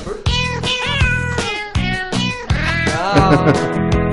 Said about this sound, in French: Il danse avec les chats.